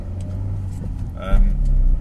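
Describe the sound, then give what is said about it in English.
A car being driven, its engine giving a steady low rumble with a brief louder surge near the end. “set it to record and then I start driving and I'm off.”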